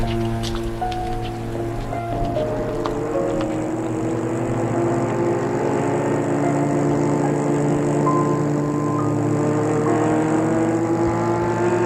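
A car driving along with a steady engine hum and road noise, loud and unbroken throughout, with no talking.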